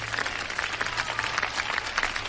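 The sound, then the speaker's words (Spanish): Steady, dense applause from many hands, evenly sustained throughout, over a faint low hum. “Gracias, gracias por los aplausos como Chabelo.”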